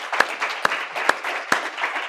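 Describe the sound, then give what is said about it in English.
Audience applause at the close of an expert panel event: a steady wash of many clapping hands, with four sharper, louder claps standing out at fairly even intervals. “A round of applause for all of them,”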